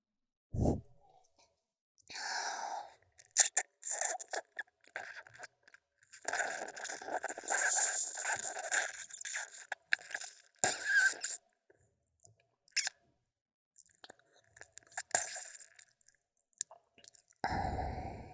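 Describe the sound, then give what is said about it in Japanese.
Wet sucking and slurping mouth sounds imitate a vampire drinking blood as a sound effect. Many soft smacks, clicks and drawn sucks come in irregular bursts separated by short silences, fairly quiet and close. “吸血されたがりの仕方ない少年は罰として気絶寸前まで血を吸ってやるから覚悟するんだな。”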